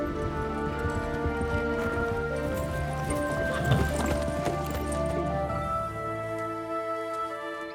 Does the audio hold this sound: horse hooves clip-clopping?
yes